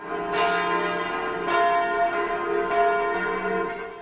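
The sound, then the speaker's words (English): Church bells ring out across Switzerland on a national day of mourning, with many resonant, overlapping strikes blending into a continuous, loud peal that hums without pause. “church bells rang out across Switzerland as the country held a national day of mourning for the 40 people killed in the blaze.”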